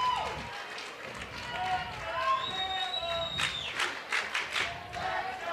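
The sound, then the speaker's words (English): Fans cheer and shout in the stands at a college softball game. A steady crowd din of many voices rises and falls, with higher cries and scattered claps. “Strong Alabama contingent making noise, as you'd expect. Many more Alabama fans than Auburn fans here.”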